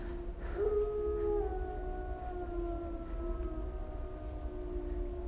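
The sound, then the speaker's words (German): Mongrel dogs howling in long, drawn-out tones that slowly sink in pitch, several voices overlapping above a constant noisy background. “Wölfe. Keine Wölfe. Mischlinge.”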